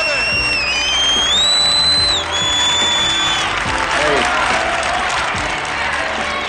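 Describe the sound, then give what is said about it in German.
Cheering and applause from a crowd at a boxing event ahead of a 12-round fight at Madison Square Garden. The roar is loud and sustained throughout, with shrill whistles cutting through in the first few seconds. “Sie hören sich wie ein Boxpublikum an.”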